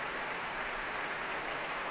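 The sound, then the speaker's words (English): Applause from a concert hall audience at the Royal Albert Hall after an orchestral performance: a dense, steady wash of clapping that holds at an even level throughout, with no voices standing out. “The moment the applause started”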